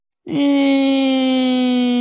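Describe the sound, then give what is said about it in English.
A voice imitates a child's fake whining cry: one sustained, nasal, moaning wail held at a steady pitch for about two seconds, loud and alone, after a brief dip at its start. “And it's like not a cry. It's like a fake cry. Yes, but there's no wetness coming out of her face at all. It's just the sound.”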